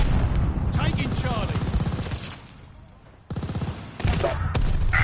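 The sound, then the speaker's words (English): Loud video game gunfire, dense rapid bursts of automatic fire. The shooting drops to a brief lull, then resumes in heavy bursts. “Oh my goodness, my bullet is killing them.”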